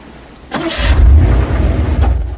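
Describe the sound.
A car engine starts as the car drives away. After a quiet moment it bursts into a loud, deep rumble that holds steady and strong to the end.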